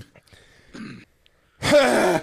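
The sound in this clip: A person clears their throat with one loud, rasping, voiced rumble at the end, preceded by a few faint, brief noises.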